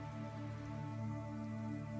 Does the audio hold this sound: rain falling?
yes

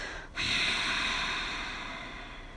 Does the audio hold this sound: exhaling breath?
yes

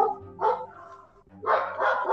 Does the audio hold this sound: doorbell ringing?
no

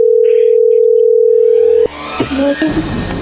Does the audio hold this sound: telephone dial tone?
yes

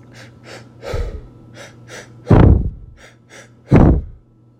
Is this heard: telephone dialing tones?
no

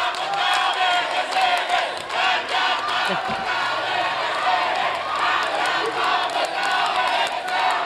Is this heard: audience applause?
yes

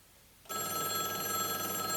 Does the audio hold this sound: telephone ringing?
yes

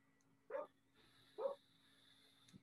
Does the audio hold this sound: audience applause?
no

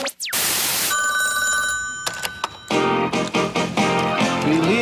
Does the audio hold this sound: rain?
no

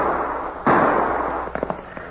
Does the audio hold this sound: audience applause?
no

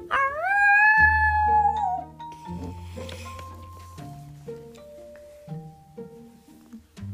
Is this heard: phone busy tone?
no

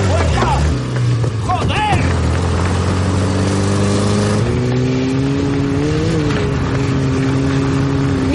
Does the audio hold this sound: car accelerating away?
yes

